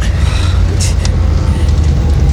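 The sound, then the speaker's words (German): A car drives along a coastal road with a steady, loud, low engine and road rumble, and a couple of brief hissing swishes pass early on. “Der Wagen fährt auf die Küstenstraße.”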